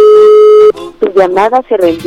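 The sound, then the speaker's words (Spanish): A single steady telephone ringback tone as a call is placed, lasting under a second, then a person starts talking. “Vamos a ver si tenemos oportunidad que nos reciban la llamada.”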